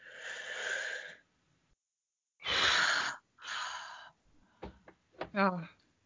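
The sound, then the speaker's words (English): A group takes a deep breath together: a long, rushing inhale, a pause, then two heavy breathy exhales, followed by a few short voiced sounds. “First, we got to have a breathe. We have to have a breathe.”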